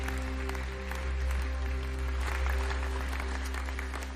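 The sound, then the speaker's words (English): A church audience claps in welcome during a Sunday worship service, producing a steady patter of many hands that continues evenly throughout. “Hey, can we just put our hands together one more time and welcome people into God's family?”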